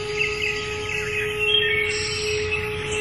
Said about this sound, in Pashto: کله چې وروستی سر هم غوڅ شو، زرین مرغه سندره پیل کړه.